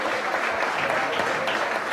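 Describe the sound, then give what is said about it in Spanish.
A football crowd applauds a player leaving the pitch as he is substituted, a dense, even wash of clapping that holds at a steady loudness throughout. “Gonzalo Serrano con esta ovación que le hace la afición”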